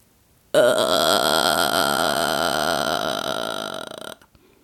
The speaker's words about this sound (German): Die nächste Technik ist eine meiner Lieblingstechniken, der sogenannte Vocal Fry oder Schnarregister. Ich mache es euch einmal vor, dann wisst ihr, was ich meine.